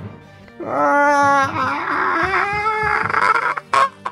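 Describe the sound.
A voice imitates a creature's wail during a tabletop fantasy role-playing game: a drawn-out moaning cry of about three seconds at a fairly steady pitch, trailing off into a few short, breathy sounds.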